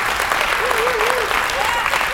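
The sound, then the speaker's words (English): Church audience applauds first-time visitors with a big hand clap, a steady, dense wash of clapping lasting throughout, with a voice faintly over it. “let's give all of our visitors here, our first-time guests, a big hand clap, Life of Faith Church.”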